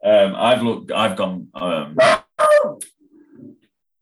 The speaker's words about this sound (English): sorry, that's my dog going on.